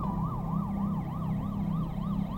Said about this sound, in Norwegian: Til slutt kommer ambulansen.